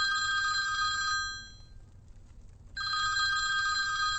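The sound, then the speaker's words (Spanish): A telephone bell rings twice. Each ring is a long, bright, trilling burst, and a short quiet pause separates them. “¿No vas a coger el teléfono? Pensaba que lo ibas a coger tú. Cógelo ya, por favor.”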